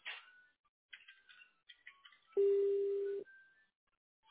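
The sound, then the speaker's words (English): A voicemail message tone beeps once on a phone line: a single steady, mid-pitched electronic tone held for under a second, loud and alone after a few faint, brief line sounds. “Please leave a message at the tone”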